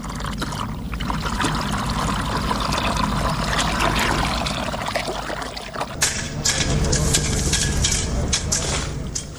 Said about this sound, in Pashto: دغلته یوه ښځه ده بیل پلاس کې دی، خپل ځمکو کې اوبه لګوي.